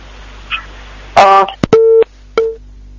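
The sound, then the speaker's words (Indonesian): Telephone busy tone after a call is cut off: a short crackling burst, then two steady mid-pitched beeps separated by a brief gap, with no talking. “Payakumbuh, mungkin bisa dihubungkan kembali, ya, ditelepon kembali, terputus sambungan teleponnya”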